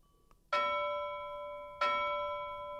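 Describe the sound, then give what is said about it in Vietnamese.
A bell struck twice, each strike giving a bright, clear ringing tone with a long sustain. The second strike comes before the first has died away, so the ringing overlaps, with no voices. “Tiếng chuông dài kỳ lạ vang lên bên tai.”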